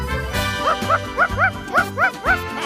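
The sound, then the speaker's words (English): A dog sitting and barking, giving a quick run of high, yipping barks at an even pace, each bark short and fairly loud. “He's just sitting there barking.”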